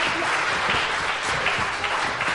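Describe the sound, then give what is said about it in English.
Dense, steady applause from an audience for the actors who have just performed a story, many hands clapping in a continuous wash with no pauses. “Let's give our actors a round of applause.”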